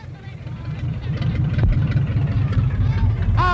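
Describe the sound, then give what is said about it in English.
A car engine rumbles and runs roughly as the car runs out of gas. The low, steady drone continues under several voices talking. “I think we ran out of gas. Well, I better check the tank.”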